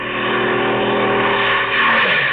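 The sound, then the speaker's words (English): An approaching patrol plane drones in flight. Its engine roar is loud and continuous with a steady, buzzing tone that turns slightly brighter and more intense toward the end. “What's that thing coming toward us? Well, have no fears, madam. That's merely a patrol plane.”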